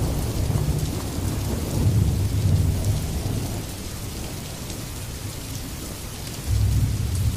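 Heavy rain pours outside a window, a dense, steady hiss that swells and eases slightly, with deep low rumbling beneath and no voices.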